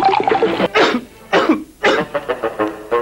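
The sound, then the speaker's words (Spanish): Harsh, throaty coughing: several loud, separate cough bursts in a row, followed by a run of shorter, quicker coughs and throat-clearing sounds. “Evito la tos con pastillas Penetro.”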